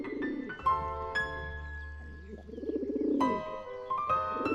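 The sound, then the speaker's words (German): Doves coo at daybreak in early spring, soft, low, plaintive calls repeating in a steady cadence, fairly faint, with some tonal background. “Plötzlich hörten wir die gleichmäßigen Kadenzen eines klagenden Rufes. Es waren die Tauben, die zu gurren begannen.”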